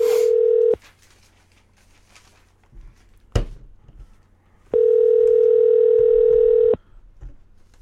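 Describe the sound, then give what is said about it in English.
Telephone keypad tones on an automated phone line: two loud, steady, pure beeps, a short one at the start and a longer one held for about two seconds, with a sharp click and faint noise in the quiet gap between. “To reach one of our staff members, oh. please dial one. One.”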